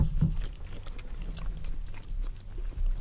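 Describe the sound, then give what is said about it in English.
Biting into and chewing a fruit-dense mince pie: soft, moist munching and crunching that runs steadily throughout, with no talk over it. “That's my first mince pie of the season, guys.”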